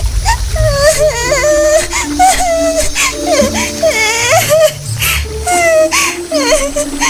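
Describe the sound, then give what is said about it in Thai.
A girl crying after slipping and falling from a hill and spraining her ankle: sustained, wavering high-pitched wails and sobs that run on continuously, with a faint low rumble underneath. “ข้อเท้าของเธอได้แพลงจึงได้ลุกขึ้นยืนไม่ได้เธอจึงได้เริ่มร้องไห้”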